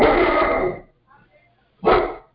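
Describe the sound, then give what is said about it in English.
Two loud, rough barks from a dog, separated by a quiet gap of about a second, with faint low sounds in between. “is that your dog? Yeah. He has something to say, it sounds like.”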